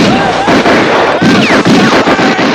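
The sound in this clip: Loud, dense gunfire in rapid bursts forms a near-continuous barrage, with short breaks between volleys.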